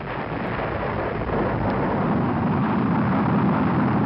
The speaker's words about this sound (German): Vor 40 Jahren aber, da ist eine etwas andere Nachricht verschickt worden, per Rakete, in etwa so. 3, 2, 1.